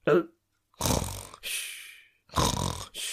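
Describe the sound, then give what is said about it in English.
A man snores in a film scene, with a short snort followed by several loud, rasping breaths in a rough, rhythmic pattern separated by brief pauses. “snoring away like a scene from a Will Ferrell comedy”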